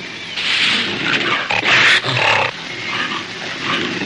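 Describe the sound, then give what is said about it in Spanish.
A leopard snarls and growls while a man wrestles it and rolls on the ground with it in a 1932 film jungle scene. Loud, harsh growls and grunts run almost continuously over about four seconds, surging in the middle. “Coge al leopardo por detrás y lo zarandea. Rueda por el suelo con el felino.”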